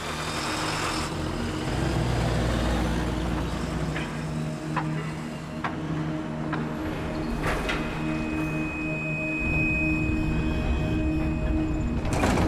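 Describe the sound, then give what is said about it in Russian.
A van loaded with explosives starts up and drives off a factory site in a film, with a low engine rumble throughout and a few sharp clicks and knocks over it. “Ариса садится за руль фургона со взрывчаткой, заводит его, выезжает с территории завода.”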